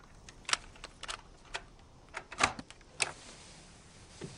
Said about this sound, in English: Inside the cottage, she puts the tape in a cassette player.